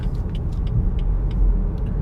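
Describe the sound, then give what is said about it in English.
A car drives around city streets in Los Angeles, giving off a steady low rumble of engine and road noise with a few faint higher clicks. No one speaks. “You're having a great time listening to me aimlessly drive around LA.”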